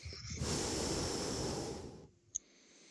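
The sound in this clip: Heavy breathing blown straight into a microphone: one long, loud, rushing breath that cuts off abruptly, followed by a single brief sharp click.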